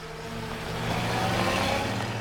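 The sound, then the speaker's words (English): Engines of a black staff car, two open-topped vehicles and a motorbike with a sidecar arriving in a courtyard, a steady low droning rumble that swells gradually louder across the short clip. “His attention is suddenly caught by vehicles streaming into the courtyard.”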